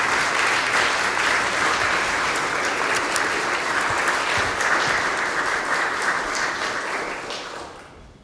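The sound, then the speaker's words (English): Audience applause welcoming a speaker: a dense wash of many hands clapping, steady and loud for most of its length before tapering off at the very end. “So if you all please um, put your hands together to welcome my, my friend Sam to be with us today.”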